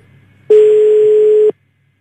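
A telephone ringback tone sounds while calling the town hall of Faicchio, Italy: a single steady, mid-pitched beep lasting about one second, heard alone with silence before and after.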